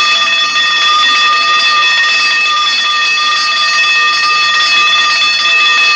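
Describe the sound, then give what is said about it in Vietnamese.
A lights-out bell rings at 11 o'clock at a school, a loud continuous electric tone with several steady high harmonics held unbroken for six seconds, alone with no talk. “Cô vừa đến trường thì chuông báo tắt đèn lúc 11 giờ vang lên.”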